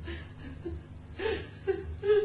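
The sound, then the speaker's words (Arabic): Someone cries softly, with faint, short whimpering sobs in uneven bursts that grow slightly louder toward the end. “استني استني ده صوت حد بيعيط”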